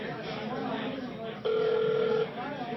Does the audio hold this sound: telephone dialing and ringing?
yes